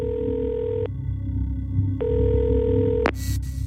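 Telephone ringing tone while calling a free hotline number: a steady pitched tone sounds twice, each about a second long, separated by a silent gap of similar length, then a sharp click and noise as the line connects.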